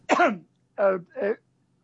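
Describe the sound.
Throat clearing: one longer, rough rasp followed by two shorter ones, loud and isolated with no talk.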